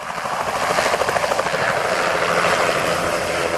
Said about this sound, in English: Here's the sound of a small plane spraying mosquito-killing pesticide.